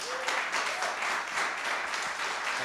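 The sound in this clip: Applause welcomes a guest speaker at a Dream Center church gathering: a steady, dense crowd of clapping that holds at an even level throughout.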